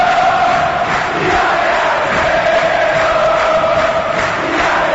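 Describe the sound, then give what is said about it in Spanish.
Cerro Porteño supporters roar in the stadium during a football match, a loud, sustained mass of cheering and chanting voices with no break. “Con este apoyo del público de Cerro se va el partido.”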